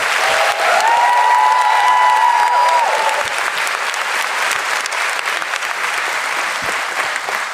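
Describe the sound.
Loud, dense applause for a guest from a studio audience, a steady crackling wall of clapping that runs unbroken through the whole stretch and eases only slightly toward the end.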